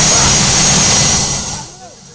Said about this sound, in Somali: Xilli habeen ah ayaa caawa diyaaradii ugu horreysay oo rakaab sida waxay ka ambabaxday garoonka diyaaradaha ee magaalada Muqdisho.